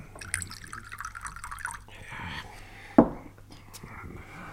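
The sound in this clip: Water is poured into a glass with a short, splashy trickle, then one sharp drip-like hit, set among soft liquid sounds and faint murmured speech.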